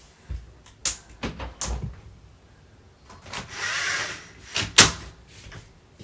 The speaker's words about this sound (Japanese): ちょっと暑い、本当に暑すぎる。ちょっと窓開けようかな。